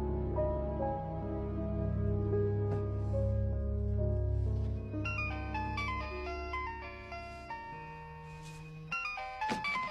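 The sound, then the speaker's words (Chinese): Mobile phone ringtone plays before a call is answered, a bright electronic melody of stepped notes over sustained tones, running continuously and loudly for about ten seconds with no talk. “贾迪按下接听键， 开免提。”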